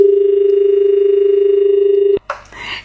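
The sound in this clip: Telephone line tone after the caller has hung up: a loud, continuous, steady tone that cuts off abruptly and is followed by a brief burst of noise.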